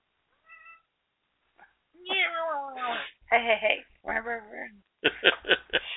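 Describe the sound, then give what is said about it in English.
A female cat meows, one drawn-out call with a falling pitch, followed by a few shorter, choppy calls of varying loudness. “Cat's interrupting us. Get out of the way, cat.”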